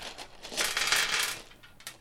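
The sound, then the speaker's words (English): Clattering rattle of many dice dumped out and rolling during a tabletop role-playing game percentage roll, a faint, busy patter of small hard knocks lasting about two seconds. “You dumped all those dice out”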